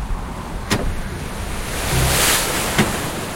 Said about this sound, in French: alors que le froid descend et que le vent se lève sur la barque à six rames engagée au large. Une tempête se prépare.